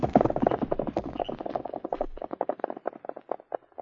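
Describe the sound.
Horse hooves clatter as riders set off, a quick run of many sharp clip-clop beats in an uneven, galloping rhythm that gradually thins and grows fainter toward the end.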